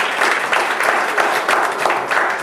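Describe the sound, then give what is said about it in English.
Applause from an audience for the pianist who played that day: a dense, steady clatter of many hands that stays loud and even from start to finish, with no voices. “Give him a hand of applause.”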